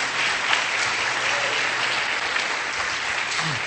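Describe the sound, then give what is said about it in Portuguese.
An audience applauding at a church service, many hands clapping in a thick, even stream that stays steady and fairly loud for the whole stretch, with no speech over it. “Vamos aplaudir o Senhor pela vida deles.”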